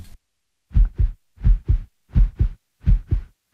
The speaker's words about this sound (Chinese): 首先，我轻轻慢慢拨动鼓膜。